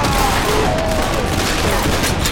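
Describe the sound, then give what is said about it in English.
Gunfire as several shooters open fire at once in a shootout: a loud, dense volley of shots blurring into one continuous crackling roar from start to finish. “Smoke, Sally, Pearlie, and Cal opened fire, and with the first broadside, Coleman, Deacus, and Agnew went down.”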